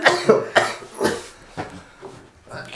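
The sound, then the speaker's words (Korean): A person coughs several times in a row. The coughs are short and harsh and come in an uneven rhythm with brief gaps between them. “기침.”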